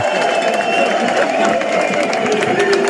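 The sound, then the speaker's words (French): Tour de France spectators cheering in Montmartre, Paris, in the last kilometres before the race finish: a constant, loud roar of crowd noise with clapping, shouts and voices blended together. “Nous filons maintenant à Montmartre avec Marion Ferrer. On entend le public. Ouais. La ferveur.”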